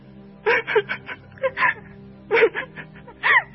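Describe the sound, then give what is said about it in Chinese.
A woman cries in sorrow, sobbing in a few uneven, breathy bursts that waver and break between short pauses, with no words spoken. “他的妈妈凯琳娜忍不住悲伤的哭了起来”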